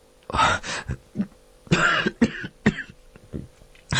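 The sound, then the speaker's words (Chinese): A man coughing with a frown while worrying over money: a string of harsh, rough coughs and throat clearing in uneven bursts, some paired close together, with short gaps of quiet between them. “列文咳嗽着，皱着眉头”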